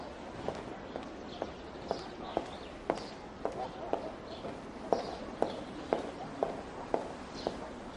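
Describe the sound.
Footsteps walking along the crenellated battlement wall of a castle, many evenly spaced, crisp steps in a steady unhurried rhythm, fairly faint over a low background hiss.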